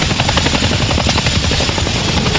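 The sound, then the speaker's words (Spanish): Helicopter descending over an open field near a building: loud, steady rotor roar with a rapid low thudding pulse throughout, unbroken and without voices. “Un helicóptero desciende sobre un campo abierto cerca de un edificio.”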